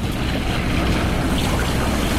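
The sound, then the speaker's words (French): Surf and waves lapping against reefs make a steady, dense rushing wash that stays loud and even throughout, with no distinct breaks standing out. “particulièrement ces sondes du ressac, du clapotis des vagues contre ces récifs,”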